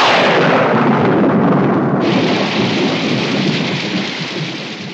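Heavy, steady rain pours down with deep, rumbling thunder rolling beneath it. The dense hiss stays loud throughout and eases slightly toward the end.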